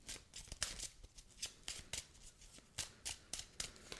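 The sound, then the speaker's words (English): Tarot cards are shuffled by hand in many quick riffling bursts, each a soft crisp rustle with brief pauses between, quiet and alone without talk. “So let's pull some tarot. Let's see what's going on this week.”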